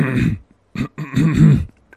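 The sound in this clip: A voice imitates throat clearing, mimicking a speaker with an irritated throat at a microphone: a few rough, guttural bursts, the last and longest one rasping and strained.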